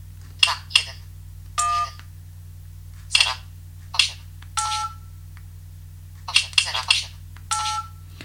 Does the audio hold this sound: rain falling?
no